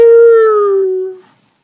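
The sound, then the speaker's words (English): A human voice imitates a coyote howling at night with a single loud, sustained 'ooh' that holds steady, then slides slightly lower in pitch before fading out after just over a second. “Show me how a coyote barks in the night. You mean like this?”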